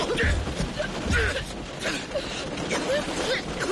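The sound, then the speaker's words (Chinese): Creaking, ratcheting metal strain as a car door caught in a mudslide is forced open, a few bursts of grinding, squeaking mechanism noise over a rough, rustling background. “我想办法打开车门”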